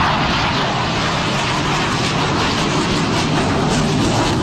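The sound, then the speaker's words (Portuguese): A fighter jet roars overhead at an air show at Praça Campo de Bagatelle in São Paulo's north zone: a loud, steady, dense engine roar that holds unbroken throughout. “Esse é o som de um dos caças nesse evento aéreo em São Paulo, na zona norte, ali na Praça Campo de Bagatelle.”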